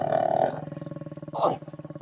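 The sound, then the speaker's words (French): A lion roaring while mating, a deep rumbling voice with rapid, rhythmic grunting pulses and two louder roaring swells. “Non, c'est un lion. Ah, ouais. Le roi de la jungle, lui, qui jouit, ça fait ceci.”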